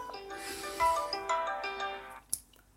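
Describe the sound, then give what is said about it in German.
A mobile phone plays a melodic ringtone for an incoming call: a string of sustained, bright electronic notes at moderate-to-soft volume with no voices. “Oh, da ruft sie schon an. Moment.”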